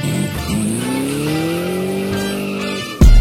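Car tires screech in a loud, sustained squeal that holds for nearly three seconds, then an abrupt, louder burst cuts in at the end.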